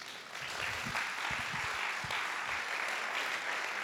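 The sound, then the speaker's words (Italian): A church audience applauds during a Sunday service, a steady, fairly soft wash of many hands clapping that holds even from start to finish. “Un applauso, vero?”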